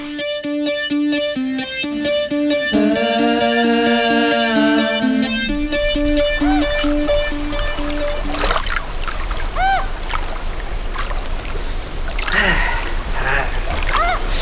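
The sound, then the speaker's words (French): A person swims in Lac du Der in November, making irregular splashes and sloshing water after several seconds of loud music at the start. “Eh ben, elle est pas chaude l'eau du Der. Hein. En même temps, se baigner dans le lac en novembre, c'est pas commun.”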